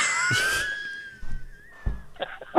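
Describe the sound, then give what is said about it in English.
A German Shepherd howls like a wolf in one long, steady, high-pitched tone lasting about two seconds, with a few short rustling noises before and after it. “Dog. It sounds like a wolf. That's my German Shepherd.”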